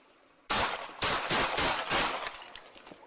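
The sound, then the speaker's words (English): Gunshots fired by a police officer at a man, a rapid series of loud sharp blasts that break out suddenly from a quiet background and trail off with ringing echoes. “Shots fired! Shots fired!”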